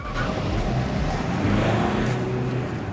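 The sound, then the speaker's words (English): A black car drives off, a steady low engine rumble holding at an even, moderate level for a few seconds. “Buddha's black car pulls up outside, then Mikey's let out, followed by Stephen and Spunky. Pulling up his hood, Mikey goes one way across the estate, then the two lads split up and go another. The car drives on.”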